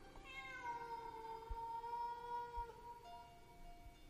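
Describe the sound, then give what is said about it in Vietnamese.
Stray cats yowl in long, drawn-out, wavering tonal wails that bend in pitch. A second cry begins as the first breaks off, and both stay faint and alone with no voices. “nghe như có tiếng mèo kêu ở đâu ghê quá”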